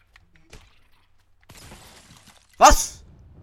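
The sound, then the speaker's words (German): An axe breaks in a video game: a single sharp, bright shattering crack near the end, preceded by faint scattered clicks and a soft rustling stretch. “Oh, mein Axt ist kaputt.”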